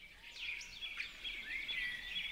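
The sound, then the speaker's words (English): Birdsong plays in the background of a political ad. Faint, continuous high chirps and warbling whistles sit over a soft hiss, with no voices. “But if you're going to go with a sort of bird song in the background, I don't think you should go for an attack ad that's nice.”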